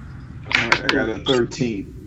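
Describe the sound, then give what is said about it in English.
Dice are rolled during a tabletop role-playing game perception check and clatter away. A few sharp, clacking bounces are heard under people talking over one another. “I got a 13. Oh, my dice went somewhere else.”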